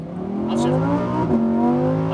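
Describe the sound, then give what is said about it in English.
A Lamborghini Huracan STO with 631 horsepower is driven at full throttle, its engine giving a loud, sustained high-revving roar with strong harmonic tones and a brief break partway through before the note carries on. “I was in the Lamborghini Huracan STO 631 horsepower, and I was driving that thing like I stole it. Yeah. Full throttle, go ahead.”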